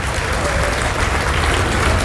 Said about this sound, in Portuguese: Quanta gente, vamos aplaudir mais ao nome de Jesus.